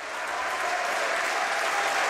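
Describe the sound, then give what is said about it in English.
Sustained applause from members of Canada's Parliament: a dense, even clatter of many clapping hands that holds steady and loud throughout, with no voices standing out. “members of Parliament in Canada breaking into sustained applause”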